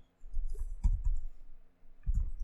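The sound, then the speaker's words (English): Typing on a computer keyboard: a few faint, irregular clicking taps spaced across a couple of seconds. “If I type the button so it shows up.”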